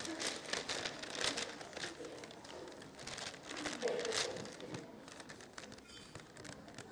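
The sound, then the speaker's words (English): Wrapping paper is crinkled and torn off a birthday present in a steady run of rustling, ripping crackles, with people talking over it. “You can rip it. Just go for it. It's a birthday present.”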